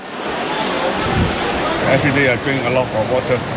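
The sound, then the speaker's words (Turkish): Water splashes and rushes steadily at the Trevi Fountain in Rome on a hot summer day, a loud continuous wash with a voice speaking over it. “Sıcak havadan bunalan Romalılar soluğu aşk çeşmesi olarak bilinen tarihi Trevi çeşmesinde aldı. Serinlemek için çeşmeyi seçenler arasında turistler de vardı.”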